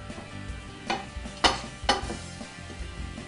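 Greens frying in oil in a hot pan give off a steady low sizzle, broken by three sharp, louder bursts of stirring and scraping against the pan.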